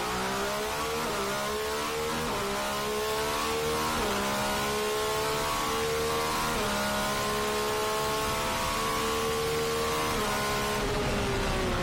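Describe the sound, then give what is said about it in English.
A racing car engine revving hard through successive gear changes, loud and continuous, its pitch climbing steadily in each gear and dropping sharply at several upshifts, with no voices. “Nah, they need to lift the limiter on that. Give it another 1,000 RPM. It's just starting to sound nice when he changes gears.”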